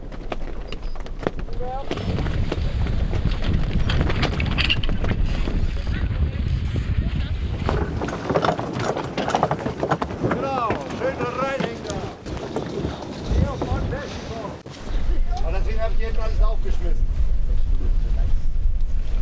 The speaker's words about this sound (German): Gegen 7 Schiffe in ihrer Klasse müssen sie sich auf der Flensburger Förde behaupten. Und dabei mehr als 70 andere Segelschiffe im Auge behalten.